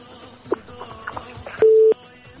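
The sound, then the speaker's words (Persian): A single steady mid-pitched phone tone sounds after a call disconnects. It follows faint clicks and low background noise. “تماس هدیه جان قطع شد و فکر میکنم که نمی خواست چیزه بگه.”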